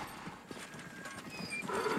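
Hooves of a horse clop irregularly as it pulls a crude wooden plough across a dusty field, with a soft scraping, rustling background throughout.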